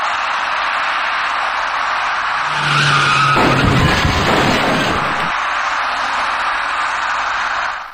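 Tires of a white small passenger car screech in a loud skid at a road intersection, heading toward an electric bicycle rider. The squeal rises out of a steady hiss for about two and a half seconds, then stops.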